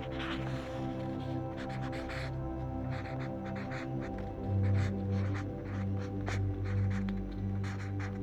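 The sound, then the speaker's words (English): A pen scratches on paper as someone writes out a manifestation by hand. Faint, short strokes come in irregular bursts over a low, steady hum. “So I'm gonna write my lunar leaves manifestation. You can write my career manifestations, my dream life, whatever feels best for you.”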